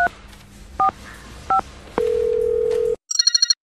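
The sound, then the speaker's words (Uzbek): A telephone call being placed: three short dual-tone dialing beeps, then a steady tone of about a second, then a rapid run of bright electronic ringing pulses. “Nima qilsam ekan? Yana bir marta telefon qilib ko'raychi.”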